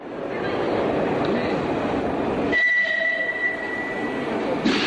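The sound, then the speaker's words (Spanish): Underground metro train at a station in Madrid, a loud steady roar of rolling cars with a thin high wheel squeal emerging midway and holding on. “Nos hemos bajado del metro. Estamos en la estación de Moncloa.”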